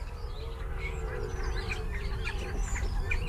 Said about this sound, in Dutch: Een hele hoop van die kleine vogeltjes die een beetje zitten kwetteren met al die vleugeltjes gewoon heel veel geluid